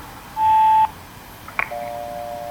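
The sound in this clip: A single steady electronic beep from an answering machine signalling the start of recording: a loud, even tone about half a second long, followed by a faint click and a quiet lingering hum.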